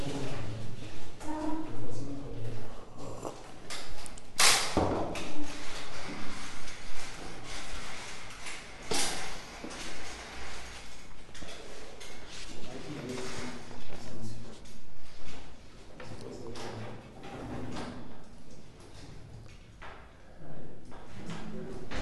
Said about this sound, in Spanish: Si quieren abrir esas este, persianas, que los vayan este, abriendo.